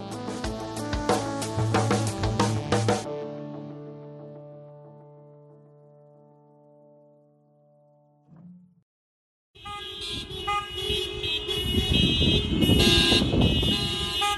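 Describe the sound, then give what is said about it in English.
Car horns and car alarms blare at a socially distant car protest over hotel rooms for homeless people. Loud sustained horn tones fade slowly into near silence, then a dense, loud wall of honking and alarms returns. “That's the sound of a socially distant car protest captured by the Coalition on Homelessness, which took place April 13th.”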